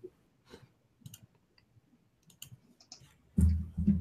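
Typing on a computer keyboard: a few soft, scattered key clicks at an uneven pace, faint and without talk, followed by a louder burst of noise at the end.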